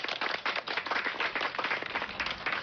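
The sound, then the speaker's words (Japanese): Applause from an audience of about 166 people at a live event in Ishikawa Prefecture: dense, steady clapping that holds an even level throughout, with no voices. “皆さん大きな拍手をお届けください”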